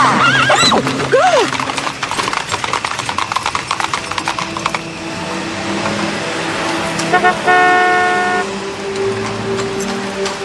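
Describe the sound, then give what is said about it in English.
A horse pulling a carriage neighs once, a loud whinny. A long run of rhythmic hoof clip-clops follows, with traffic noise underneath, and later a car horn toots several times. “One short carriage ride later.”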